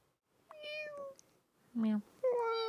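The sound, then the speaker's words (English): A human voice imitates an angry alley cat with three fairly faint, drawn-out yowling meows separated by short pauses. The middle yowl is lower and shorter than the others. “That's an angry alley cat.”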